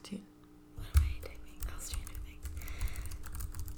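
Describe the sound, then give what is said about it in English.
Rapid typing on a computer keyboard: many small, irregular clicks run on steadily, with low voices talking underneath. “What am I typing? Oh, we can hear your typing. Okay, if you can hear my typing, now you're going to know that I am typing the whole time.”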